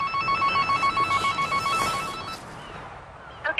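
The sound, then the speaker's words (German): A telephone rings with an incoming call for an animal rescuer: a bright electronic trilling ring that pulses rapidly for about two seconds, then stops and gives way to quiet. “Er weiß, es dauert nicht lange, bis der nächste Anruf kommt”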